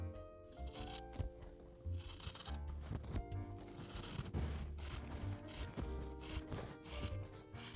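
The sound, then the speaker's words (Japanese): Scissors cutting through cloth, heard alone as many dry, rasping snips and rubbing strokes in an uneven rhythm. “ハサミで 布を切る音。”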